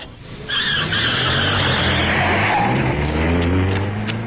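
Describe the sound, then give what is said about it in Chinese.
Tires skid and screech as a car brakes hard, heard from a long way off: one long, loud, sustained squeal over a low engine rumble, holding steady for several seconds. “他理也没理我，开车走了。老远了，我还听见他急刹车的声音。”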